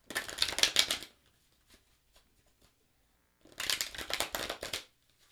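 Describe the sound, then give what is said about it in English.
Two bursts of Voyager Tarot cards being shuffled by hand, each a rapid crisp riffling that lasts about a second, separated by a few seconds of near silence with faint soft rustles. “So here we go, tuning in, connecting to the sound of the cards.”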